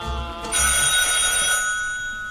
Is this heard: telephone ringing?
yes